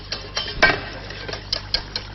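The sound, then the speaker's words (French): Spoon clinks and light scrapes against a pot as spoonfuls of cream go into a blanquette sauce. Several soft, irregular taps and one louder knock, with no voices. “je viens de verser les trois cuillères de crème.”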